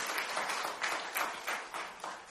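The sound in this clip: Applause rises as a new family is welcomed during a church service: steady, dense clapping from the audience, fairly faint and even throughout, with no talking.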